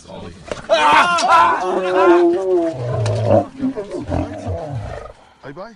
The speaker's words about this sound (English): I saw the video of this. It's the sound of a lion biting an extremely silly man on the hand.